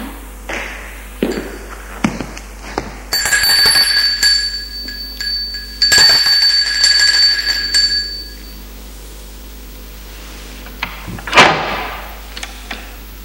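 A doorbell rings at someone's home: two sustained bright ringing tones, each lasting a second or more, with a few faint taps and clicks around them.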